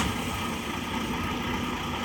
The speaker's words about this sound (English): That's his truck starting up right there.